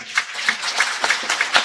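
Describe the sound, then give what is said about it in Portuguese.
Applause at a church Mass: many sharp hand claps, loosely spaced and uneven, at a moderate level. “Eu acho que não vai gastar muito a gente dar uma salva de palmas de novo,”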